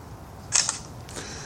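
Camera shutter firing while photographing a car's rear light bulb seated in its socket: two quick, crisp mechanical clicks close together, the first slightly louder, with nothing else but faint background hiss.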